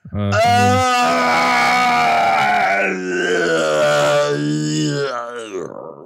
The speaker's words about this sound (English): You've been smoking? No, I've been groaning.